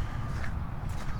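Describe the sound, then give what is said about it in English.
Footsteps fall on ice where patches of standing water lie on the surface. A few soft, low, muffled steps come faintly and briefly. “Oh, what am I doing? Walking around on the ice.”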